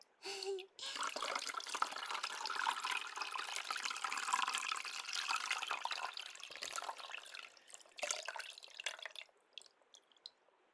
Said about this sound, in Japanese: 頭の後ろもよく濡らして、ジャブジャブ。